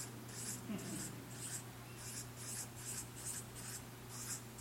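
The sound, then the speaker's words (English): Scratchy drawing strokes as many small stones are sketched onto a sheet, forming a steady rhythmic run of many short, bright bursts over a constant low hum. “You want to draw some of those on here to represent us. We're a big church, so let me draw a lot of stones.”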